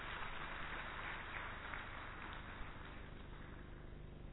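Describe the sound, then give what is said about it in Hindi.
Audience applause at a welcome ceremony, a dense, steady patter of many clapping hands that holds evenly throughout, slightly muffled. “आपकी करतल ध्वनि का साथ भी मुझे चाहिए”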